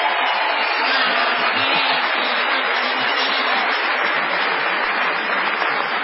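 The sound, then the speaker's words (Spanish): Audience applause fills the whole stretch as a steady, even wash of clapping with no breaks or swells, unaccompanied by talk. “Bueno, ya convenientemente aplaudidos”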